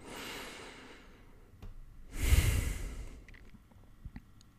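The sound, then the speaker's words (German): A deep breath in and out: a soft, airy inhale, a short pause, then a louder, longer exhale that fades, with no talk. “Wenn du soweit bist, atme noch einmal tief ein und aus.”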